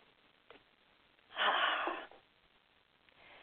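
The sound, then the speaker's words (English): One deep breath drawn in during a guided spiritual talk: a single breathy rush lasting under a second, clearly louder than the quiet background and heard without speech. “Take a breath now.”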